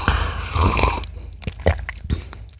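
A sip of coffee mixed with olive oil: a noisy, breathy slurp, then a few short, soft mouth clicks and swallowing sounds, with no talking.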